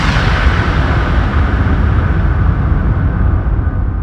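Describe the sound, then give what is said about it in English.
Proton torpedoes being fired, heard as a loud, unbroken roaring rumble of dense low noise that holds steady throughout, with no separate distinct shots and no voices. “He was filled with anger and fired his proton torpedoes.”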